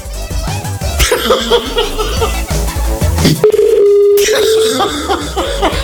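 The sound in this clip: Telephone sounds while a number is dialed: a steady mid-pitched tone lasting about a second stands out amid loud, busy clatter and scattered sharp hits.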